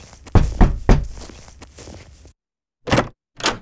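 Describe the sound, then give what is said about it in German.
Firm knocks on the door of a house: three heavy, low thuds in quick succession with a lingering rumble, then, after a short silence, two more spaced thuds. “Dann klopfte er beherzt gegen die Tür des Wohnhauses.”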